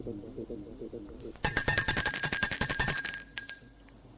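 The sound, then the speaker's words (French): An electric doorbell rings at a house in one rapid, metallic, rattling burst lasting about a second and a half, bright and loud, following a brief spoken voice. “Un après-midi, l'on sonne chez lui.”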